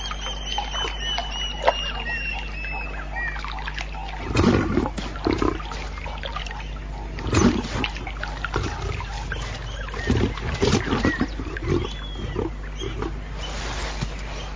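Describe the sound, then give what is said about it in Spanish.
A wild lioness nursing a cub gives low, rough roaring growls in several bursts over a steady low hum of outdoor background. “Los leones sobreviven sin agua durante mucho tiempo, pero esta amamanta a su cría y debe beber.”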